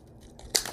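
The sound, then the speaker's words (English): Paper being cut from an old book while making a junk journal: a quiet stretch, then two short, crisp, crunchy bursts close together. “I'm going to cut off that last little piece that I don't need anymore, and I'm going to eyeball it.”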